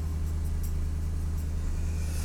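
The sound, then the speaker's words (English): Steady low engine drone and road rumble from a car on a test drive after brake work, an even, continuous hum with no change in level throughout. “We're out for a test drive, Pinkies, because I've been doing brake work on the car, the Assassin.”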